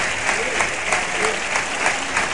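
Sustained applause from a bullfight crowd greeting a bullfighter with an ovation, a dense steady wash of clapping hands with small swells, continuous throughout.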